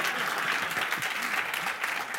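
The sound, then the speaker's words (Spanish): Audience applause at the close of a talk: a dense, steady wash of many hands clapping, moderately loud and even throughout with no voices standing out. “¡El aplauso, venga, va!”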